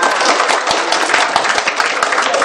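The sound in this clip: Loud audience applause at a lecture, a dense continuous wash of clapping that holds steady throughout, with a few sharper individual claps standing out.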